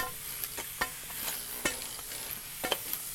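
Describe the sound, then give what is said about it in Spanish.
Sharp chipping strikes of a pick breaking hard ice off a snowy neighbourhood street, a string of irregular, crisp, fairly faint impacts over a steady hiss, with no talk. “Pues aquí picando hielo con un pistolete. Buena forma para deshacer más el hielo.”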